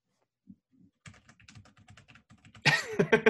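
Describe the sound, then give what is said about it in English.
Fingers type on a computer keyboard, starting with a sparse run of soft clicks. The keystrokes build into a louder, denser burst near the end. “Don't type.”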